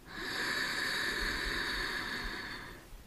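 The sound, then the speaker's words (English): A deep, slow exhale during a guided meditation: a single long, breathy hiss through the nose or mouth that lasts about two and a half seconds and fades out at the end. “and fully exhale. One more time. Deeply inhale”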